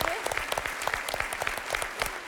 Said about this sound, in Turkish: Hadi alkışlıyoruz arkadaşlar.